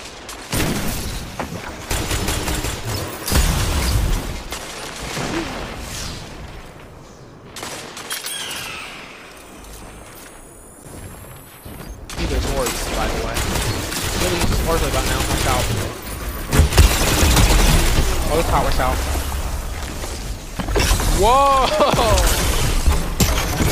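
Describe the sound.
Gunfire in the video game Destiny 2: sustained, rapid bursts of shots and crackling impacts that run almost without pause while a player talks over the action.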